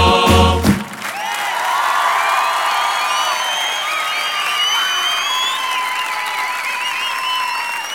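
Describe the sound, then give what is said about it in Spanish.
Applause from a crowd with shrill whistles breaks out after a brief burst of music on a rock radio programme. It then holds loud and steady for several seconds. “Aplausos, aplausos para la Catalina.”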